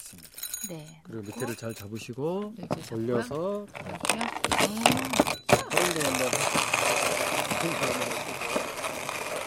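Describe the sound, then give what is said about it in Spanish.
Hand-grinding of the best-roasted coffee beans in a small manual grinder, heard as continuous, dense crunching and rasping that follows a stretch of talk and runs steadily to the end. “se eligen los granos mejor tostados y se realiza la molienda a mano en un pequeño molinillo.”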